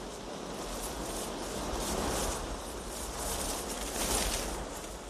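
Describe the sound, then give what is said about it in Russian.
A sudden gust of wind blows over a man on a path through tall grass in a film scene, a dense, steady whooshing roar that swells a couple of times as it continues. “Внезапный порыв ветра останавливает его.”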